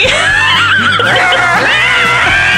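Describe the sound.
A human voice imitates an impure spirit screeching as it comes out of a person, a loud, continuous, shrill wavering squeal with a neigh-like warble throughout.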